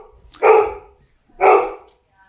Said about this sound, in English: Is that your dog? That's my dog. Sorry about that.